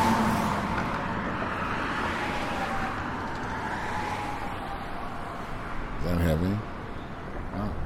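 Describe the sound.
Traffic noise while crossing Wacker Drive: a steady roar of cars and other road vehicles that stays constant throughout, with one vehicle briefly louder near the end.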